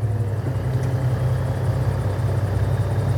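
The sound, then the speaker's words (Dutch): The engine of a Fennec armoured reconnaissance vehicle idles with a steady, low, even rumble and a faint higher whir, unbroken throughout. “Mensen kunnen het, de motor, tussen aanhalingstekens, wordt nu gestart. Motor van de Fennec.”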